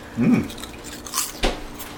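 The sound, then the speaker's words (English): Homegrown kale chips crunch in a few soft, brittle bursts of chewing, light and airy rather than loud, with a short voiced sound near the start. “Isn't that a lovely sound? Isn't that incredible? It's not like chips, right? They're called kale chips, but...”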